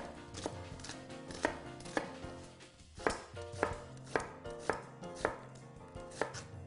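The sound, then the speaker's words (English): A knife rough-chops half a red onion and two garlic cloves on a board, making many sharp, fairly faint strikes at an uneven rhythm, with no talk. “We're gonna use 1/2 red onion, 2 cloves of garlic. We're gonna do a rough chop on both.”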